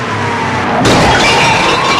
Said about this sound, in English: Crashing through a garbage can, he parks.